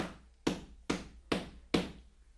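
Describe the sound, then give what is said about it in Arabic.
Knocking on a door at night: four sharp, evenly spaced raps, each loud and crisp with a short ringing decay, and no voices between them. “تاني يوم في الليل لقيت الباب عمال يخبط.”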